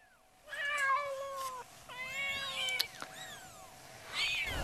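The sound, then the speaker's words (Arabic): Cats meowing in a few drawn-out, wavering calls with clear, bright tones, loud and alone over a faint steady hum. “الله يقطع القطط ما اكرههم، عم يشوشوا عليك، انا بورجيهم.”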